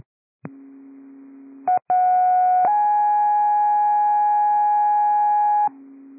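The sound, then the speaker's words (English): Fire department radio dispatch test tones: a steady low electronic tone, two brief blips, then a higher sustained tone shifting to another bright tone held for about three seconds, ending on the low tone again. “Big Lake Fire, these are test tones. Test tones only.”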